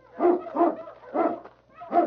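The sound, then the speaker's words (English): A large dog gives four short, whiny barks in a snowy outdoor setting, spaced unevenly with brief pauses between them. “the great dog King sensed death in the air. What is it, King, huh?”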